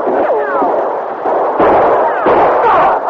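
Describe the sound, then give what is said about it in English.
Gunshots are exchanged on a ship's deck in a radio drama, a few sharp loud bursts mixed with voices. “The sergeant's shooting was accurate. Chalmers and Garrett's wasn't. The two killers dropped to the deck.”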